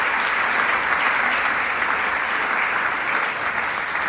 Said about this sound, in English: So guys, when you put your hands together, welcome to our house.